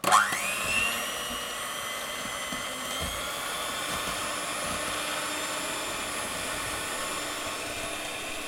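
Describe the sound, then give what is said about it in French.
An electric mixer beats aquafaba (chickpea cooking water) with a steady, high motor whine. It spins up with a rising pitch in the first second, then holds a continuous, even drone for about eight seconds with no talk. “Je vais préparer le batteur électrique.”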